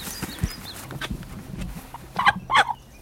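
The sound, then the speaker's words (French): Hen clucking with a rooster nearby: a few soft, scattered clucks, then two louder, sharper calls close together near the end, all fairly faint. “La petite cocotte. Ah, on va rien y faire, parce qu'il y a le coq là qui nous surveille.”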